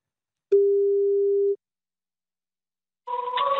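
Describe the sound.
A phone call rings once with a single long, steady, mid-pitched tone, then falls silent for about a second and a half before a different tonal sound begins as the call switches to voicemail.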